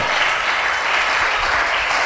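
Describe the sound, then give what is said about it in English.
A church audience clapping during a service: loud, dense applause that holds steady throughout with no break. “Oh, somebody keep clapping, church.”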